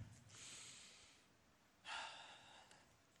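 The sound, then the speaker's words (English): A person takes deep breaths during a sermon: two faint, airy breath sounds, the first long and smooth, the second shorter and sharper, then near silence. “Take a deep breath.”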